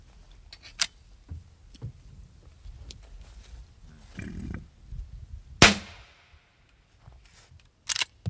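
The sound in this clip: A single rifle shot kills a bison during a field harvest: one sharp, loud crack with a trailing ring, set against quiet outdoor rustling and low sounds, then near silence before two short bursts at the end.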